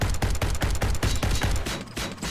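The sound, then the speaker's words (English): Rapid automatic gunfire played during combat in a tabletop role-playing game: many loud, sharp shots in a fast, steady rhythm, with a brief break near the end before the firing resumes. “We just fire a few rounds into them.”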